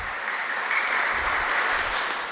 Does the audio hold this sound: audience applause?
yes